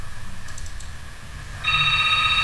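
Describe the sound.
Telephone ringing for an incoming call-in listener: a steady, bright electronic ring with sharp overtones starts partway through and continues loudly to the end, after a stretch of faint low hum.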